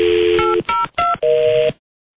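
Telephone keypad dialing tones: a few steady electronic touch-tone beeps follow each other in quick succession, each held briefly with short gaps between, loud and clear with no talking, ending in silence.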